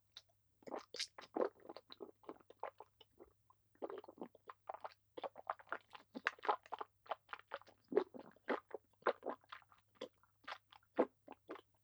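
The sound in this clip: Crunchy chewing and biting of food during eating, with many quick, crisp bites and chews in an uneven rhythm. The sounds are faint and heard alone, without talk.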